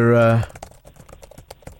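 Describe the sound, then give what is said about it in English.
Rapid typing on a computer keyboard as details are entered into a system: a dense run of many light, irregular clicks that follows a brief voice at the very start. “typing your details into the system now, Andy Dawson.”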